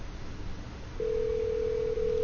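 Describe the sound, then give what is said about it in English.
A telephone line rings while a call is being placed: after about a second of quiet hiss, a steady low electronic tone starts and holds unbroken to the end. “And the telephone is ringing.”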